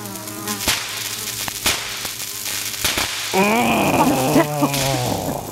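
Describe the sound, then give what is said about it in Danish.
Insects buzz indoors on a windowsill, floor and up near the ceiling, a wavering droning hum whose pitch shifts and wobbles, with a few sharp taps along the way. “Insekter i vindueskarmen, eller på gulvet, eller oppe i hjørnet, lige under loftet, eller hvor det er bare sådan, det er indenfor. Derfor så lyder det hjemme hos mig sådan her.”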